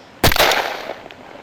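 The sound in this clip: A rifle shot fired on command at a shooting exercise: one sharp, loud report that cuts in abruptly and rings off in a decaying tail over the following second.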